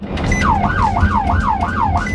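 A police siren wails during an Arizona Department of Public Safety commercial vehicle enforcement traffic stop, sweeping up and down in quick, even cycles, loud and steady, with no talk over it.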